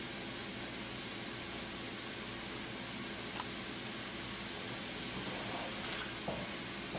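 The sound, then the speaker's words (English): Spicy food fries in a pan over high heat with a steady, even hiss of sizzling that carries on without pause at a fairly low level. A few faint clicks rise above it. “Let that cook for just a couple of minutes over the high heat.”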